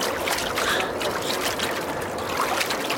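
Water swirling in a gold panning dish on a river beach, a steady washing and sloshing sound with no pauses, rich in soft hiss.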